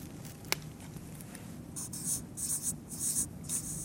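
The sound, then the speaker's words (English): A pen scratches across paper as a Greek word is written down, producing quiet, quick strokes in short bursts with a small tap near the start and no talking. “And I'll just check that I get this right. The first one is neos. I'll write that down.”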